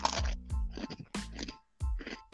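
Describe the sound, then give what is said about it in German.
Oreo cookies being eaten, with a few crisp, loud crunches from bites and chewing, each a short burst separated by brief pauses. “Ich habe hier noch, ich habe hier noch Oreo neben mir. Aber also wenn ich die jetzt esse, dann, dann macht es die ganze Zeit so.”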